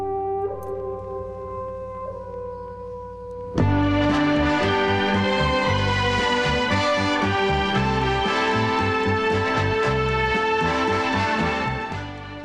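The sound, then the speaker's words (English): Theme music from a television show opens softly with a few held notes, then swells abruptly into a full, loud passage. Steady low rhythmic notes sit beneath sustained melody lines and continue without any talking. “That is the sound of the theme music from The Little House on the Prairie.”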